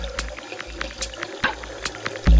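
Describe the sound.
Water runs from an open household tap at roughly six litres per minute, a steady, faint rushing stream with small splashy bursts and no voices.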